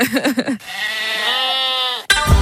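A sheep bleats in one long, loud, steady nasal call lasting well over a second, with a few short bursts just before it and a brief noisy sound after.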